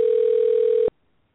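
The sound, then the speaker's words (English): Phone ringing with a single steady electronic tone, loud and alone, held for just under a second before it cuts off sharply into silence. “I'm getting a ring on my phone.”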